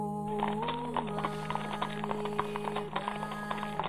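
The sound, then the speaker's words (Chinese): Clattering hooves of a large procession of horses carrying nobles, officials, monks and guards toward Shigatse: many irregular, overlapping hoofbeats, noisy and chaotic, over a sustained musical backdrop. “教外是喧腾而杂乱的马蹄声，更加惹得他心情烦乱。”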